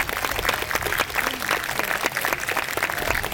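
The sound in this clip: A New York audience applauds to welcome a young musician from Franklinton, North Carolina, with dense, even clapping that carries throughout.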